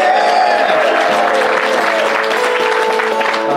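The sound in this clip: Applause from an audience welcoming a comic songwriter to the stage: dense, continuous clapping that holds at a steady, loud level for the whole stretch with no break.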